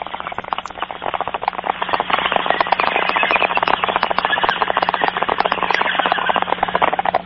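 Bomb explosion sound effect over a narrow, phone-quality line: a loud, sustained burst of dense crackling pops and rumble that keeps going steadily for several seconds.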